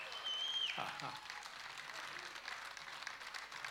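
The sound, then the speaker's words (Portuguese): Audience applause: a dense, continuous patter of many hands clapping, faint and even throughout. “A salva de palmas”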